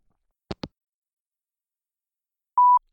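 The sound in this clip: A short, pure, steady voicemail beep sounds before a message is left. It is preceded by two quick soft clicks, with silence between them.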